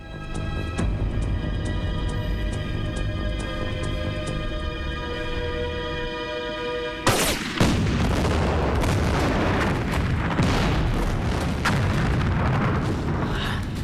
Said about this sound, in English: Sam smiles, then ducks for cover as explosions occur all over the factory. One of the mighty chimneys collapses as smoke rises up from the burning buildings.